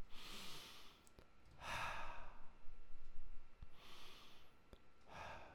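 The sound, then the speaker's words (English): Slow, deep breathing, drawn in through the nose and let out through the mouth during a relaxation exercise: a few soft, airy breaths, each a gentle rushing swell with quiet gaps between, faint and without talk. “Let's go ahead and breathe in through your nose and out through your mouth.”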